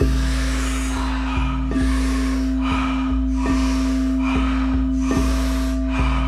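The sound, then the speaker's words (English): Deep breathing during a breathwork exercise: repeated, rhythmic rushes of air in and out, each lasting under a second, running continuously over a steady low tonal drone. “So really just focus on pulling that breath in. Feel the navel expanding up. Feel the lower rib cage expanding outward.”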